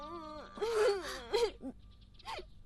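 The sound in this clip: A child cries in a wavering, wailing voice while lost in an empty, unfamiliar place, with a few drawn-out sobbing bursts that rise and fall in pitch, then trail into quieter whimpers.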